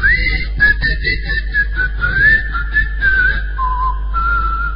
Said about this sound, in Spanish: A poco de llegar a Tracoda, se escuchaban los silbidos de los habitantes.